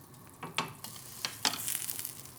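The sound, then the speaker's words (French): Two steaks frying in a pan with butter and pepper, giving a soft sizzling hiss broken by several sharper crackles and pops that come and go throughout. “Je leur fais cuire les deux steaks. Je mets du beurre et du poivre sur les deux steaks.”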